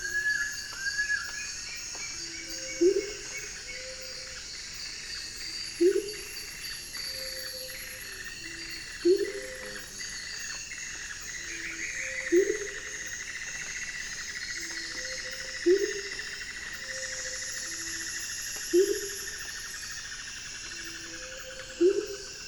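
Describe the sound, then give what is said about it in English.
An Amazonian motmot gives resonant, low hoots, seven of them evenly spaced about three seconds apart, over a constant high-pitched whirring. A brief higher note sounds near the start. “the resonant hoots of an Amazonian motmot, along with the plaintive notes of a long-billed woodcreeper and the whirring song of another bird that I have yet to identify.”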